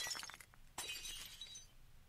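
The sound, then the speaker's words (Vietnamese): A ceramic bowl smashes and shatters against someone's back, giving a faint crash of breaking shards that repeats in two bursts, each trailing off into thin tinkling. “Cái bát đập vào lưng thằng béo, vỡ đánh xoảng một tiếng, hết cả hồn.”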